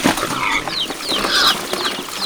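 A hen clucks at a pig trough on a farm, giving a quick run of several short, bright, squawking clucks with rising and falling pitch, fairly loud and with no talk.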